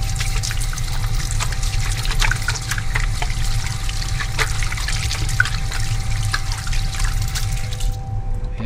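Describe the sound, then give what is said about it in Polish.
Running water from a tap as hands are thoroughly washed with liquid soap before entering a sterile operating room: a steady, even rush and trickle that lasts about eight seconds, then stops, leaving only a faint hum. “Z pojemnika płyn na dłonie. I porządnie myjemy ręce.”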